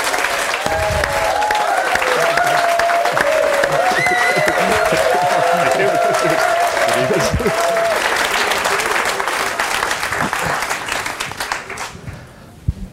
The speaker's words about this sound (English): You often get whooped on stage? It was a very nice reception. I've been doing women's institutes recently, so I have had a little bit of whooping recently.